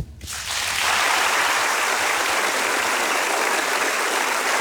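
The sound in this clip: Audience applause at an anniversary celebration, a dense wash of clapping that rises within the first half second and then holds loud and even for several seconds.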